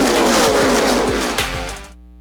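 NASCAR Cup Series race cars roar through turn four at Charlotte Motor Speedway, a loud, dense engine drone with several passing cars whose pitch drops, fading away before cutting off abruptly.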